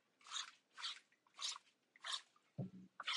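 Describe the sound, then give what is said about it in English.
A spray bottle spritzing cleaner into a kitchen sink: four evenly spaced hissing sprays, then a fifth cut off at the end, with a soft low clunk between the last two. “And then I take my little spray”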